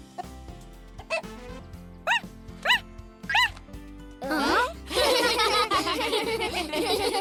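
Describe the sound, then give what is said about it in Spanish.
A cartoon baby parrot, newly hatched from its egg, barks like a dog: a few bright rising chirps come first, then a louder burst gives way to a dense, busy spread of sound that runs to the end. “¡Es una lorita perro!”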